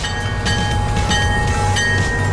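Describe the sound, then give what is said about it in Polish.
A train runs on rails with a steady, low rumble and rolling wheel noise. Faint periodic clicks from the track come through, with no voices. “Kiedy podróżujemy pociągiem, rzadko zastanawiamy się nad samymi torami.”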